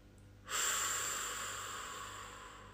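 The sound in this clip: A single long breath during a slow in-and-out breathing exercise. It starts abruptly as a soft, airy hiss and fades gradually until the end, with no voice.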